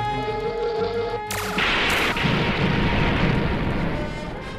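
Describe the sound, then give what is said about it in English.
A blast from a Klingon battlecruiser in Star Trek, a sudden explosive burst that cuts across a steady tonal backdrop, a second hit just after, then a broad roaring rumble that slowly fades. “That Klingon tactical. That blast decalibrated the integration parameters.”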